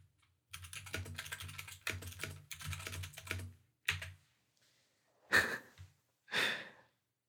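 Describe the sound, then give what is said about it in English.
Fast typing on a computer keyboard: a dense run of clicking keystrokes for about three seconds, a short final burst, then two breathy sighs. “Let me just type it to you.”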